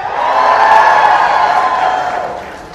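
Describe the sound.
A stage show audience lets out a loud, collective 'ooh' of cheering and whooping. It swells quickly, holds, and then gradually fades away.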